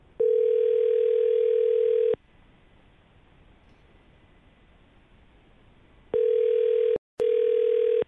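An outgoing telephone call rings with a steady electronic ringback tone lasting about two seconds, followed by a long silent pause. The tone then returns and is briefly broken off before sounding again.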